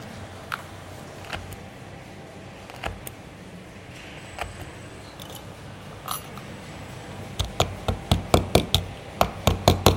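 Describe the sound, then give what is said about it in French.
Sharp tapping while a closure is fitted onto a leather bag in a tannery workshop. A few scattered taps lead into a rapid, rhythmic run of louder knocks at the end. “Ça c'est pour mettre la fermeture, hop.”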